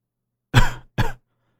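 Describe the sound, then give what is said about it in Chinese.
Two short, dry coughs from a boss character clearing his voice before speaking, the second cough briefer than the first, alone with no talk around them. “咳了两声”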